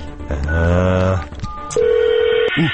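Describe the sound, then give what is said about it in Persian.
A telephone call rings on the line, beginning with a short melodic tone and then a long, steady ringing tone that holds loud and clear. “حالا بذارش زنگ بزنم ببین چه مخی بزنم ازش. این شمارش”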